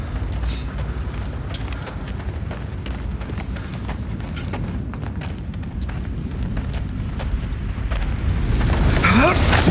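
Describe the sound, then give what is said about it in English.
A fire in a deep chasm gives off a deep, continuous roaring rumble that grows stronger and louder toward the end. “What in God's name is that? It's the chasm. There's a fire down there. No one knows how deep. Sometimes it rears up like a dragon. Like the mouth of hell.”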